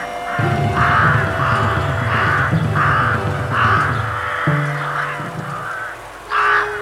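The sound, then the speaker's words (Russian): Ravens caw again and again as they return, many harsh, throaty calls in a loose repeating rhythm over a steady low drone. “Вороны возвращаются.”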